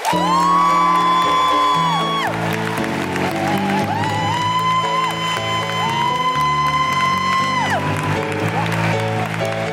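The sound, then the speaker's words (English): Audience cheering, whooping and applauding in welcome at a Guardian Live event for The Guardian's editor-in-chief: loud, dense crowd noise that holds steady for about ten seconds. “guilty feminist welcoming noises, along with Guardian Live welcoming noises”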